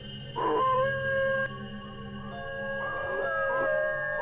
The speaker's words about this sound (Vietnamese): từ ngoài ngõ, một tiếng chó tru dài thê thảm làm tôi giật mình.